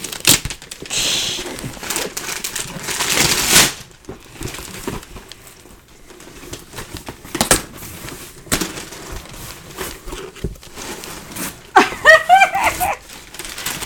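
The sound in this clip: Paper gift wrapping is ripped open on a birthday and Christmas present, a stuffed toy in a delivery box, with loud tearing and crinkling bursts early on and scattered softer rustles and crackles afterward.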